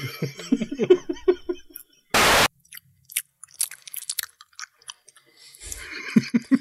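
Crisp crunching of chips being chewed, with a string of irregular bites and crunches broken by pauses and one loud, brief burst of noise partway through.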